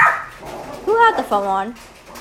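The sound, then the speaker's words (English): A dog barks twice, each bark drawn out and tonal with a whining, yelping edge, the second a little longer, over low background noise. “Apparently, got a dog barking. Yes, a dog barking.”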